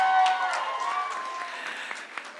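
An audience applauds a winning debate team, the clapping dense at first and then thinning and fading to a few scattered final claps.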